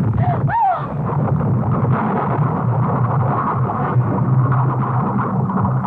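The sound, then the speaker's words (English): A blaze roars through a laboratory after fire from a wastebasket spreads, a steady dense crackling rumble that holds throughout, with a few brief whistling tones near the start. “the lab's on fire. The fire in the wastebasket must have set off some kind of... You stay back, Jessica. The heat is too much. I'm afraid the whole place is going.”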